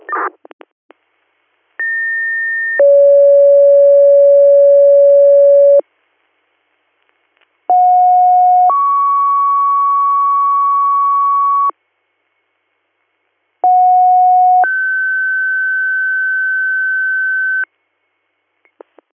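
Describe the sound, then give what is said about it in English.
Dispatch radio pager alert tones paging a third-due station: three two-tone sets, each a short steady beep followed by a longer held tone at a different pitch, separated by silences. The tones are clean, loud and alone. “did you need a second set of third due tones? I'm going second page of Ridgeberry.”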